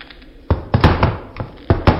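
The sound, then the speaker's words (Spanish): Someone trips over a chair lying on the floor, producing a series of irregular wooden knocks and dull thuds that bunch together, pause, and then return in a couple more clattering hits. “He tropezado con una silla que había tirada aquí en medio.”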